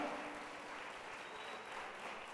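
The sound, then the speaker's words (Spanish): A church audience applauds during a Spanish-language service with a steady, even wash of clapping that stays faint and unbroken throughout. “Démosle un aplauso al Señor nuestro Dios.”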